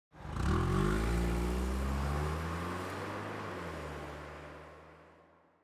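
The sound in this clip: A car engine revs and the car pulls away. The rumble swells quickly to a loud, steady drone, then slowly fades over several seconds, with no voices.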